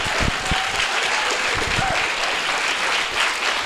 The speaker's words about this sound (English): you get to hear yourself clapping in the audience